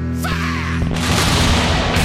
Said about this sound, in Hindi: sir तोप हमने चला दी है